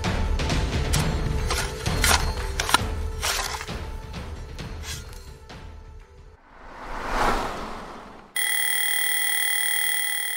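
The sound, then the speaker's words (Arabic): An alarm clock bell rings loudly and steadily in the final seconds, following a stretch of clattering, crashing noise and a rising-then-fading whoosh. “بكر يبدأ يوما جديدا، حينما يدق جرس المنبه، وحينما ينقطع خيط الحلم بمقص الرقيب، وحينما يخترق الرنين خلايا مخك لينفض خلية خلية.”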